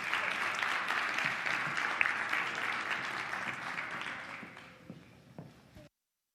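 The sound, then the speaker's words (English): A church audience applauds as a woman comes up to speak. The clapping is soft and steady at first, then tapers off and stops abruptly near the end. “Give her a hand as she comes.”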